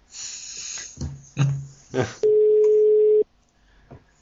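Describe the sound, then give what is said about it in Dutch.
A call tone from a Skype call being placed: a single steady mid-pitched tone held for about a second, preceded by a few brief bursts of sound. “die zouden we kunnen bellen. Dat hoor je dan zo.”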